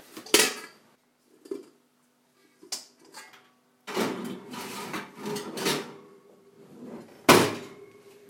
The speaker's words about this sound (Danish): vi har varmet den her støbejernsgryde inden, og vi skal have dejen over, og vi skal have låg på.